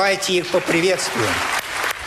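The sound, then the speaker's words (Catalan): Applause breaks out in the Russian State Duma, a long ovation for war veterans, heard only briefly under a voice speaking over it. “Amb aquesta llarga ovació, la nova Duma va rebre els 46 excombatents que han aconseguit escó.”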